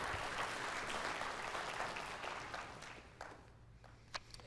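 A church audience applauds to welcome a new staff member. The clapping is full at first, then thins into a few scattered claps as it dies down.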